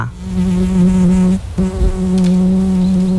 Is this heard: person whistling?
no